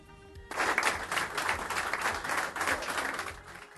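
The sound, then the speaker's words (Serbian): Applause greets basketball coach Svetislav Pešić as he enters the Crvena zvezda club premises. After a quiet half-second, brisk clapping from many people begins and stays lively to the end. “Aplauzi i odlična atmosfera dočekale su dobro raspoloženog Svetislava Pešića po ulasku u prostorije košarkaškog kluba Crvena zvezda.”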